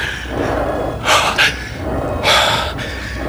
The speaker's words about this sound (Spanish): Necesito aire, tomar aliento, pero está jadeando y casi oigo su corazón.